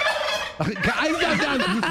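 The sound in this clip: A person imitates a turkey gobble with a loud, rapid, quavering warble of shifting pitch. The warble starts after a brief break and carries on to the end.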